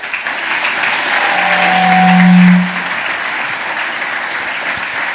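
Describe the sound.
An audience claps to welcome a speaker, producing loud, continuous applause that stays steady throughout. A steady low tone sounds briefly in the middle.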